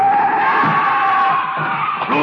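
Tires screech as a car skids in a street, a loud, steady high-pitched squeal that holds for about two seconds without a break.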